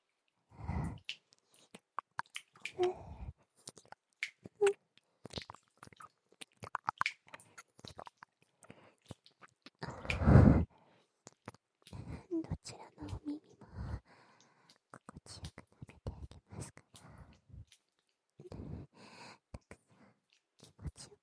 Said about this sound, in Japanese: 同じようにペロペロと舐めさせていただきますね。